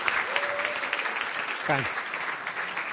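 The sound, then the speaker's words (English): An audience applauds to welcome a guest speaker at a morning gathering. The steady clapping continues throughout while a voice briefly speaks over it. “So let's give him a good warm welcome, would you?”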